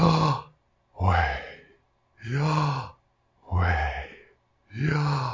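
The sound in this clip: Slow, heavy human breathing in and out: five loud, sigh-like breaths in an even rhythm, each a breathy voiced rush separated by short silent gaps, with no other sound.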